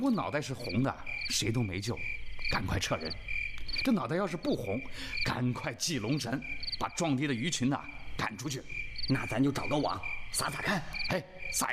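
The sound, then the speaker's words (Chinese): Frogs croaking near a water embankment form a loud, continuous chorus of rapid, rattling calls mixed with insect-like chirring, while people talk over it throughout. “底下有蛤蟆叫了两声， 这两声叫声太大， 激起四周一片蛙鼓。”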